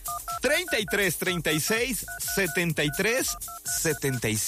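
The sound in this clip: Touch-tone keypad beeps as a telephone number is dialed: several short paired tones scattered through continuous, lively talk that carries on over and between them.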